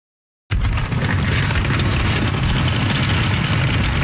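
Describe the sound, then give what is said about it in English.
Large wheelie bins roll from a parking lot toward university dorms as students move in. A loud, continuous rumbling roar starts abruptly and holds steady throughout, heavy in the low end, with no talk. “That's the sound of the big wheelie bins that the University of Ottawa provides to help students and their parents haul stuff from the parking lot to the dorm room.”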